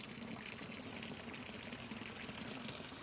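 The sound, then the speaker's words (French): Running water from city fountains in an Aix-en-Provence street early in the morning: a steady, continuous rushing and splashing wash that stays even in loudness throughout, with no voices. “Il est encore tôt, il n'y a pas tant de bruit dans les rues. On entend juste l'eau qui coule.”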